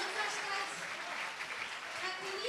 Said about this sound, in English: They're cheering again, pal. Is that the reaction to these exit poll numbers?